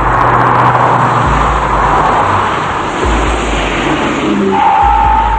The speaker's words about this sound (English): Stopped in the shadows, DeVoe and Kelly watch as cars drive slowly down the street behind them. In the light of traffic, the three cars pass them by.